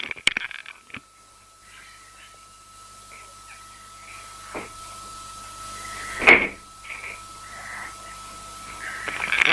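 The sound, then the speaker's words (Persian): A door is closed, giving a short, sharp knock midway through, with a few fainter clicks and taps around it over a low, steady background hiss. “ببخشید من صداتون ضعیف بود، در رو بستم.”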